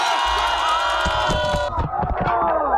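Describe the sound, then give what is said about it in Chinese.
A crowd cheers and shouts after a team water-ball catching game at a neighborhood pond, with many overlapping voices raised loudly and continuously. “荷塘趣味比拼圆满结束，整片池塘久久回荡着大家的欢笑与喝彩。”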